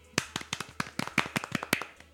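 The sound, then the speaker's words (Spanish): Fake applause: a thin spatter of uneven handclaps, many sharp individual claps at an irregular pace rather than a full crowd ovation. The claps are fairly quiet and there is no talk over them. “Es un aplauso falso.”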